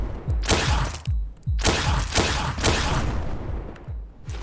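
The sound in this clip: A video game laser gun and rockets fire in many loud, rapid blasts, each a sharp burst with a booming low tail, coming in uneven bursts.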